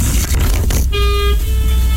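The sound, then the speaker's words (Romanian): A car sets off on the road with a steady engine rumble. Partway through, a car horn sounds a sustained, tonal toot over the traffic noise. “Gata, se pornește din nou la drum în foarte scurt timp.”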